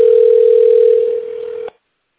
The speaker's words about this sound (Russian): Наберите внутренний номер абонента или дождитесь ответа секретаря. Ожидайте, пожалуйста, соединение.